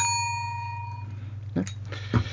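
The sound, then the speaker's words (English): A bell rings once with a clear, bright tone that fades over about a second, followed by two short, dull clunks. “And then we got Laurie's bell.”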